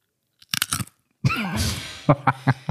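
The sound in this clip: Crunching of Jumpies snacks close to the microphone: a few crisp, sharp bites and chews, with a brief voiced stretch in the middle before more short crunches.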